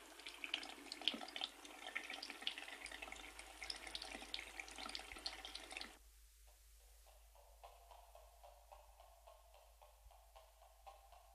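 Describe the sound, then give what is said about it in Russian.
Tap water runs steadily into a bathroom sink with a loud, even rush for about six seconds, then stops, leaving faint, rhythmic ticking drips. “заходит в ванную, открывает воду, выжидает некоторое время.”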